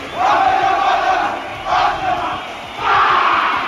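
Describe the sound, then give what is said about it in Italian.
Enthusiastic crowd at a Robert Mugabe election rally in Zimbabwe roars and chants, swelling in loud surges that rise and ease off several times. “E quello che sentite è l'entusiasmo della folla che Robert Mugabe, in realtà non negli ultimi raduni elettorali, ma in quelli precedenti, gli anni passati, quando forse godeva di maggiore consenso,”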